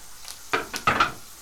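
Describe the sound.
Fried potatoes sizzling in a pan as they are stirred, with a few short bursts of scraping and crackling sizzle in quick succession.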